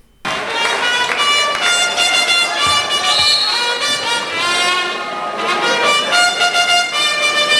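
A trumpet fanfare plays loudly and continuously for about seven seconds, with bright, sustained brassy notes and shifting held tones.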